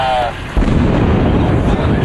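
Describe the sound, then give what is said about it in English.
A loud explosion: a heavy, low boom that hits about half a second in and rolls on as a sustained rumble to the end. “Sounds like an explosion to me. Yeah, it does. That sounded like a fucking explosion to me.”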